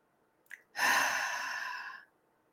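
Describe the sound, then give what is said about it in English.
A deep breath drawn in during a calming breathing exercise: a brief sniff, then one long, airy, steady rush of breath lasting about a second and a half, heard alone with no talk. “And take a deep breath in with that.”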